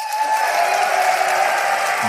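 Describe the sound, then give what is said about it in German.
An audience claps in dense, steady applause that continues without a break for the whole stretch. “Jetzt einmal alle klatschen für Ass.”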